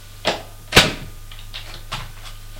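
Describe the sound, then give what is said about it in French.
A door being opened, with two sharp clicks of the latch and handle followed by several fainter taps and knocks, alone without talk. “Ouvre la porte”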